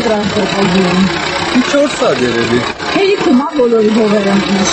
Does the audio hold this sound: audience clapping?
no

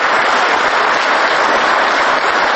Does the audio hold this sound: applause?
yes

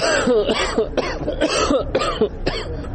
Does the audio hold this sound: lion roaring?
no

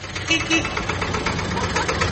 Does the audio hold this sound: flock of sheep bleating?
no

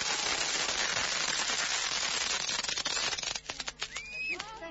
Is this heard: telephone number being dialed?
no

